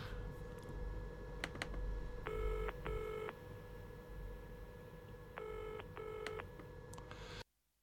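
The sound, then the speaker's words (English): A UK telephone ringing tone opens a 1978 song by an American band recorded in Britain: two pairs of double electronic buzzes, separated by a pause, over a faint steady hiss. “That's a UK dialing tone for an American band.”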